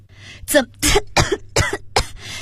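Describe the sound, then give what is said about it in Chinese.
A person coughs after nearly choking, a run of several harsh, rasping coughs in quick succession with short gaps between them, loud and alone. “姚佳怡有些诧异，也有些着急，差点呛住，咳嗽了起来”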